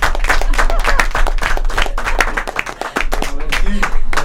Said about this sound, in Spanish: Pido un aplauso para este grupo que está acá.